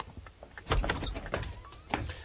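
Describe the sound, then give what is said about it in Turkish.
A house's front door is opened with a few faint, low thumps and clicks from the handle and latch, spread irregularly over a couple of seconds, with no voices. “Şimdi gidip kapıyı açabilirim.”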